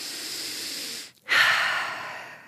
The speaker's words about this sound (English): you're going to say to yourself, you're going to take a big breath in first.